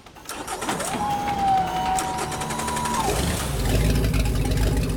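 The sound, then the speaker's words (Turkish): A boat's starboard engine starts up. A steady, high starter whine lasts about two seconds, then a low engine rumble catches and grows louder. “Sancak motoru çalıştı.”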